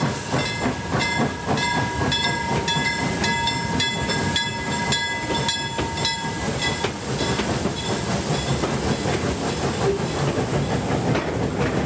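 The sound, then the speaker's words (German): A passenger train carriage rolls along the rails on a journey through Sweden, giving a loud, steady rumble with rhythmic clickety-clack and a constant hiss throughout, with no voices. “einem Waggon des Zugs sitzen ein Dutzend Fahrgäste aus Deutschland”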